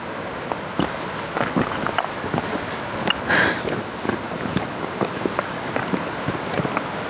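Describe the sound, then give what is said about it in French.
Footsteps of someone walking outdoors on clay ground, a steady run of soft, evenly spaced steps under faint wind in otherwise quiet surroundings. “Marcher, marcher, marcher, marcher, marcher, marcher, marcher.”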